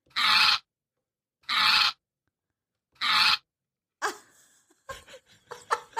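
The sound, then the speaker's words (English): Three loud, harsh bursts from a dog come at an even pace, each about half a second long with short silences between them, and then a person starts talking. “This is... animal. That's an animal. That's right. That is a dog.”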